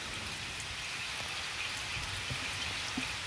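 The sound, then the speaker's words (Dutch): Heavy pouring rain, a dense, even hiss of downpour with faint scattered drop patter on top, holding steady throughout and with no voices. “En ja, we laten nog even wat van die harde plensregen horen, want dat hoort ook bij het weer. Tot zo in het derde uur van Vroege Vogels. Hier is de regen.”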